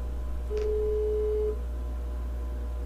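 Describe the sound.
Telephone ringing tone from an outgoing call: a single steady mid-pitched tone lasting about one second, fairly faint over a low background hum, with no talking.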